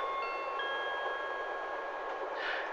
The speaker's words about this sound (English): Good afternoon, ladies and gentlemen. This is your 1404 service from Nottingham, calling at Leicester, then non-stop to St Pancras. I will be passing through the carriage in a moment, so please have your tickets ready.